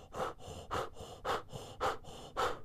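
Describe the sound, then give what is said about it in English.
Rhythmic panting breath: five strong, airy exhalations at an even pace, alternating with softer inhales, fairly quiet and without talk. “And in this moment, Azra, panting next to you, you remind yourself how to pant in this moment as you feel the energy moving through you.”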